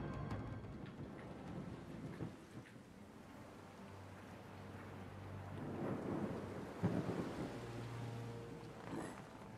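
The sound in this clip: Rain with thunder: a faint, steady hiss of rainfall under low, rolling rumbles that swell in the middle and again near the end.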